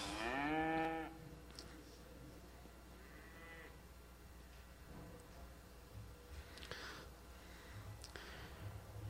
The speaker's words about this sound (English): Cows would be scared. These cows that we are hearing.